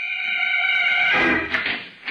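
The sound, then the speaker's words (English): A doorbell rings at the front door of a bungalow in Pasadena, California, as its button is pressed: a sustained, fairly loud tone that fades after about a second and a half, heard alone. “A tall, broad-shouldered figure in blue costume and red cape, he strides to the front door and presses the button.”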